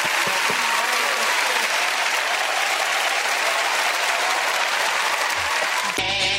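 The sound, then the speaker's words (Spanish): An audience bursts into loud, sustained applause, dense steady clapping that holds at an even level throughout before cutting off abruptly at the end. “Un aplauso.”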